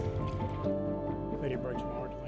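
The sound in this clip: Filthy drinking water is poured out of a container: soft splashing and dripping of liquid, faint and partly masked under voices talking.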